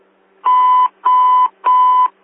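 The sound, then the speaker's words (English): A fire station alert tone sounds as three evenly spaced electronic beeps. Each is a steady, loud, mid-pitched tone with a buzzy edge, separated by short silences. “Bell's ringing.”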